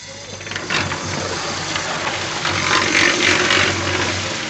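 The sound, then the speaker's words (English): A cement mixer churns at a rebuilding site in Bosnia while men shovel rubble and pour in water. It makes a steady mechanical rumble mixed with a busy, gritty rattling that swells slightly toward the end. “It's a welcome noise in Bosnia, this cement mixer. It's a sound that's beginning to be heard more and more here. Men are shoveling rubble and pouring water into the mixer to rebuild.”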